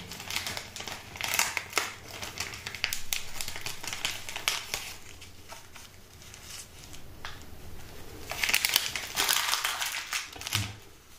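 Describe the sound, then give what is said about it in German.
Packaging being torn open gives a continuous stream of crinkling, crackling and ripping noises over several seconds, with louder bursts near the start and again toward the end. “reißen wir mal das Gedönst auf hier”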